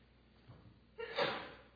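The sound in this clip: A single sneeze comes as one quiet, sharp burst that trails off over about half a second, after a faint breath just before it.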